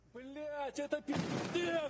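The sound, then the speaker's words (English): Bomb blast hitting a Russian skyscraper: voices are heard first, then a sudden burst of rumbling blast noise that carries on to the end with voices over it. “Did we play clip 8, by the way, guys, of the bomb that hit the Russian skyscraper but the building stood?”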